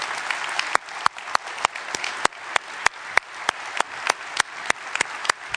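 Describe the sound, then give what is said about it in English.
A church audience applauds to welcome a state senator, with steady, dense clapping and sharp louder claps standing out at a regular pace throughout. “Senator Mike Morrell is a man that is defending our freedoms as state senator. And so give him a warm welcome this morning as well.”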